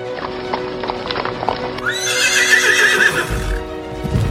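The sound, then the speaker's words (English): Horses gallop with riders fleeing outside the city of Paris, hooves clattering steadily throughout while a loud, shrill whinny rises over them midway. “Quasimodo, Esmeralda, and Captain Phoebus rode long until they were outside the city of Paris.”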